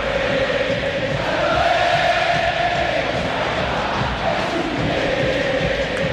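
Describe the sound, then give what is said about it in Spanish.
River Plate fans cheering at the Monumental stadium during a football match, a loud, continuous crowd roar with chant-like tones rising and falling inside the din. “Cuando así se levanta la gente de River, escuchen al público millonario aquí en el Monumental.”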